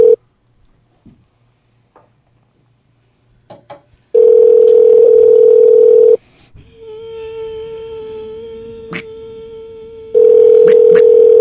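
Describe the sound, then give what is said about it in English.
Telephone tones during a call: a loud, steady dial tone sounds for about two seconds and cuts off. A quieter, continuous line tone follows with a few faint beeps, then the loud tone returns. No one speaks. “She's not answering, so I'm calling on this one.”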